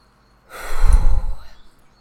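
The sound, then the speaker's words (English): One very deep breath, taken with eyes closed as a calming pause, swells into a loud, breathy rush of air lasting about a second and then fades away, heard alone with no talk. “For me, it's a very deep breath. And I wouldn't recommend doing this when you're driving, but I close my eyes and I go,”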